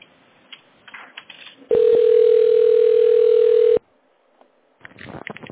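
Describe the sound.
A telephone line tone sounds during a call transfer: one loud, steady, unbroken tone holds for about two seconds. Faint talk and line noise come before and after it.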